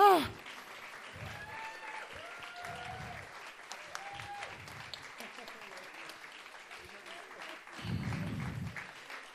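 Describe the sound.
An audience at a stage event applauds with steady, even clapping throughout, and a person talks over the applause.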